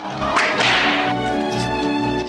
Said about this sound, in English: The sergeant continues to whip Don Felipe.